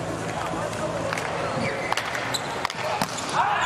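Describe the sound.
A volleyball serve by a player during a match: a few sharp ball strikes over steady crowd noise, with a commentator talking throughout.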